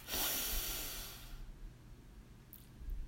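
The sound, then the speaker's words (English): A deep breath is drawn in during a breathing exercise. It is a soft, airy hiss of about a second, then fades to near silence with a few faint clicks. “So let's begin. Breathe in”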